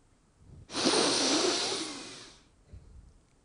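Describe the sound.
One long, deep breath drawn in while seated on the grass in a garden, a loud airy rush that swells quickly, holds for about two seconds, then tapers off into quiet.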